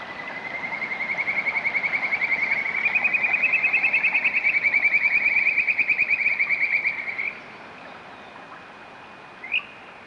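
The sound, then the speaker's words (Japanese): Frogs croak in a rapid, pulsing trill held at a steady high pitch for about seven seconds before it cuts off. A brief separate chirp follows near the end. “カエルの鳴き声いかがでしたか？”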